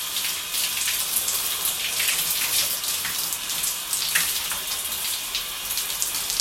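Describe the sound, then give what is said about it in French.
Shower water running while hair is wetted, a continuous hissing spray with splashing that stays steady at a moderate level, with no talk. “Je mouille également les cheveux.”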